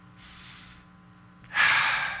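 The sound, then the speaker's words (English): A single deep breath, loud and airy, taken during a guided moment of closing the eyes. It surges in suddenly after a quiet stretch and then slowly trails off, with no talk. “You close your eyes, take your deep breath.”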